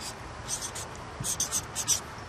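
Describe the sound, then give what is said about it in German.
Pen scratching on paper while a math calculation is written out by hand: a series of short, dry, faint strokes in quick irregular bursts over a quiet background. “Im ersten Satz des Zweisatzes schreibe ich das hin, was ich weiß.”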